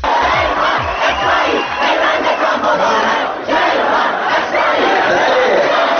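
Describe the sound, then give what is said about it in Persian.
A crowd of students in a hall chants a slogan in unison, a loud, dense mass of shouting voices that holds steady for the whole clip with a brief dip midway. “اما ظاهراً یه سری دانشجوی غیر بسیجی فتنگر گرا هم بودن توی سالون که با شعارهاشون سعی میکردن یه بارم که شده با حاج حسین شریعت مداری ارتباطی برقرار کنن. مثلا یکی از شعارها این بود:”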